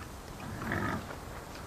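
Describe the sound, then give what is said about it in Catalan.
A wild boar grunts once: a low, rough snort that swells briefly mid-clip, faint against a steady background hiss. “Ai, un porc senglar!”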